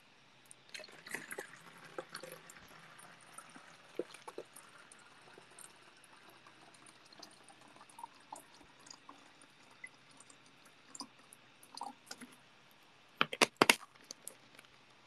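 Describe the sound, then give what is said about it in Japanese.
Water poured from one plastic bottle into another and then drunk: faint trickling and small clicks throughout, ending in a louder cluster of sharp splashy bursts. “ペットボトルからペットボトルに移して飲んでます。”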